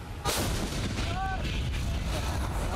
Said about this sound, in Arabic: هنا في جبهة البرح تطلق مدفعية المقاومة مدافعها تجاه مواقع الحوثيين